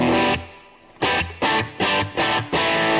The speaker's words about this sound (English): Hang on, let's put some reverb on there.